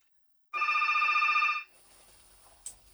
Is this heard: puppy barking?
no

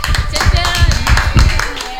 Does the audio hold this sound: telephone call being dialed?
no

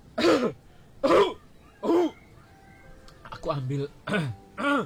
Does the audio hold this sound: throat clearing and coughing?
yes

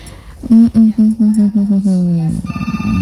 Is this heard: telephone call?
yes

